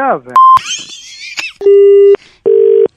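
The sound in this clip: Disconnect tones as a phone call is cut off, after brief speech: a short higher beep, a warbling electronic burst, then two steady, loud low beeps of about half a second each with a short gap between.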